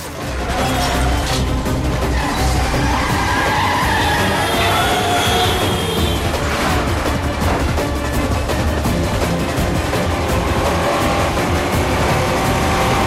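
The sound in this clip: Tires screeching as a car is forced into a spin in a tunnel during a traffic chase, with loud, continuous roaring engine and traffic noise throughout.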